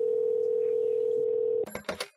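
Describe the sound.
A telephone signals an incoming caller on a radio call-in show. A steady, unbroken electronic tone holds, then cuts to a few short, bright chirping bursts at the end.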